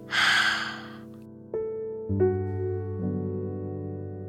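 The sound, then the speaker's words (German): A deep breath is drawn in and let out during a guided breathing exercise. A single noisy, airy breath sounds at the start, then soft sustained low tones continue to the end. “Noch einmal tief einatmen und wieder ausatmen.”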